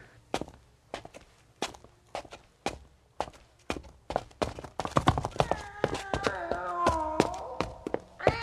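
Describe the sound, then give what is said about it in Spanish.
Footsteps going down a staircase into the cellar of an old house: steady, evenly spaced thuds, then denser and busier knocking and clatter over the final few seconds. “El gato me siguió mientras bajaba la escalera.”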